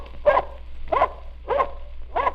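Four short, mid-pitched barks from a dog, evenly spaced, each a quick clear burst with no talk around them.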